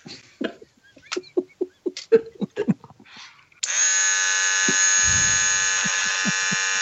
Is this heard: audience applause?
no

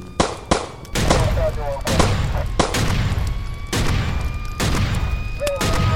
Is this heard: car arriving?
no

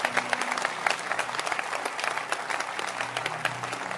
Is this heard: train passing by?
no

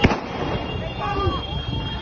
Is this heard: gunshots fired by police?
yes

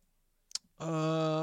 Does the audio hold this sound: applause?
no

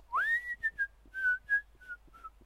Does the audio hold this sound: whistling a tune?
yes

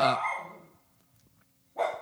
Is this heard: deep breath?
no

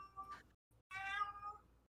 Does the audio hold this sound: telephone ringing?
no

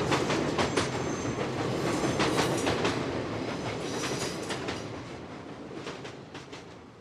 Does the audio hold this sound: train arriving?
yes

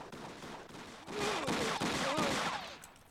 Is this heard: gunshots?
yes

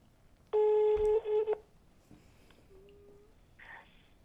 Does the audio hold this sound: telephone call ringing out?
yes

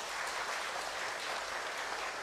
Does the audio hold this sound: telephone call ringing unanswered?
no

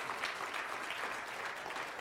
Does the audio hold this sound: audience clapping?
yes

